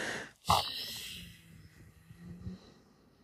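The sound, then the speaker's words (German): A single short, breathy exhale through a slightly open mouth during a relaxation exercise, a fairly strong puff of air that quickly fades into a quiet, faintly murmuring background. “Und dann öffne mal die Faust, öffne so ganz leicht deinen Mund und mach mal mit dem Ausatmen.”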